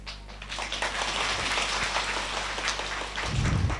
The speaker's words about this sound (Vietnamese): Vỗ tay nghĩa là hứa hay là sao ta?